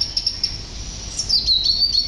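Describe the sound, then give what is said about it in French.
Birdsong from a blackbird, a warbler and a robin in a tree: a few short, high chirps, then a brighter, quicker warbling run of high notes toward the end over a soft background hiss. “dans l'arbre, le merle chantait, la fauvette chantait, le rouge-gorge chantait.”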